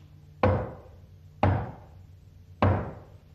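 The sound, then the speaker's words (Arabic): Three heavy, evenly spaced knocks on a door, each a single dull thud with a short decaying ring, about a second apart, with nothing else heard. “وفجأة سمعوا طرقا على الباب.”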